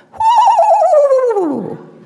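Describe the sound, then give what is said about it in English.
A screech owl gives a soft whinnying call: one tremulous, quavering note that holds steady, then slides downward in pitch and fades over about a second and a half. “the adults make the most enchanting, soft, whinnying howl”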